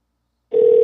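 Telephone line tone as a house phone number is called: silence, then a steady mid-pitched tone starts halfway through and holds to the end.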